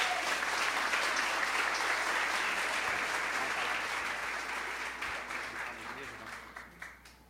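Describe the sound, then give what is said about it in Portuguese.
A church audience applauds during a missionary testimony, a loud, dense clatter of many hands that holds steady, then tapers over the last two seconds into a few scattered claps. “Pode aplaudir o Senhor pela vida da Celina?”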